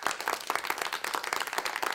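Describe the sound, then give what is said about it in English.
Hand claps for returning guests on a board game show, a steady run of many sharp, evenly loud hits with no pause. “The slow clap that's just going to get bigger and bigger and bigger.”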